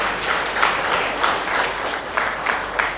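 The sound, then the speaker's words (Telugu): An audience claps in approval during a Telugu storytelling discourse on the ancient epics. A steady patter of many hands is broken by a few sharper, louder bursts at intervals, with no talk over it. “కనీసం ఇష్టమైనా చూపిస్తున్నారు చప్పట్లు కొట్టేనా, ఆ మాత్రమైనా ధైర్యం వహిస్తే చాలు.”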